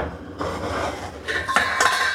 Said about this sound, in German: Dann fangen wir mal an, machen wir mal den Kartoffeltopf nach hier hinten. Vorsicht heiß.